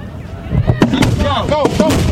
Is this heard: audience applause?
no